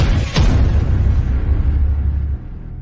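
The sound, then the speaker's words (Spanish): A starting pistol fired at the start of a running race gives one sharp, loud crack, followed by a sustained low rumble that drops off near the end. “Línea de salida. Y se da el tiro.”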